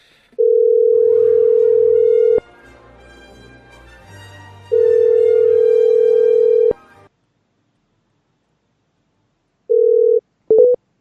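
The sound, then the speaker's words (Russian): Telephone ringback tones during an outgoing call: two long, steady mid-pitched tones of about two seconds each, separated by a quiet gap, then a shorter tone and brief clipped bursts as the line cuts off. “Гудки. А, гудки же вы все сейчас слышите.”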